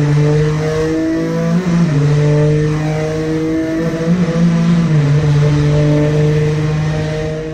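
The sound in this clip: A 3.5-litre twin-turbo V6 car engine revs hard on a track, a loud, sustained roar whose pitch repeatedly climbs and dips, heard alone with no talk.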